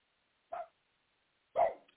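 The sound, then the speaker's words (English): Two sharp dog barks, the first short and the second louder and longer, separated by about a second of silence. “And I'm sorry the dogs are barking.”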